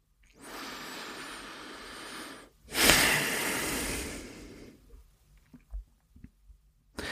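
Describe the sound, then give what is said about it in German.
A deep breath during a guided reflection exercise: a slow inhale lasting about two seconds, a brief pause, then a louder, longer breathy exhale that fades out, followed by a few faint soft noises. “wir nehmen noch ein letztes Mal einen tiefen Atemzug ein und aus”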